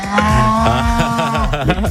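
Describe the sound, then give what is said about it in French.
A cow lets out one long, loud, drawn-out moo. The low, throaty call wavers slightly in pitch and carries steadily for a couple of seconds. “Une vache dans le studio.”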